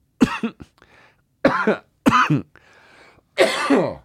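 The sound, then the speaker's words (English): Loud, harsh hacking coughs come in four rough bursts, with short throat-clearing rasps in the gaps between them. “Excuse that extremely loud hackaroo from me.”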